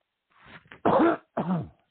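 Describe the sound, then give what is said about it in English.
Harsh, throaty coughing: two loud rasping bursts after a brief breathy wheeze, with no voices around them. “that cough is terrible.”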